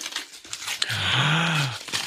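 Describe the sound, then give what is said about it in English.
Crinkling and tearing wrapping paper as a wrapped gift, a book, is opened. A longer rip in the middle is framed by short rustles and crinkles. “This is a great audio gift for unwrapping, but you go first. I will go first. Okay. It appears to be a book or a DVD.”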